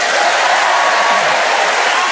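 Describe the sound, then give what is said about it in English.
Studio audience applauding the introduction of a game-show panel, dense continuous clapping with a few cheers, steady and fairly loud from start to end. “Please welcome all four of them.”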